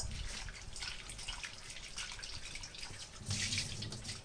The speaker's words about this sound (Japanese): ミニトマトはヘタを取ってから洗います。ヘタの周り結構汚れがついているのでヘタを取ってからお水で洗います。